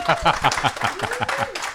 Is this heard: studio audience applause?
yes